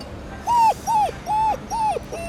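An injured dog with a broken leg whimpering in four short, high, nasal whines at an even pace, each rising and then dropping in pitch.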